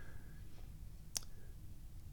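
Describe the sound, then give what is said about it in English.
A single sharp computer mouse click, made to refresh the screen, stands out briefly over a low, steady background hum. “Let's click refresh the screen.”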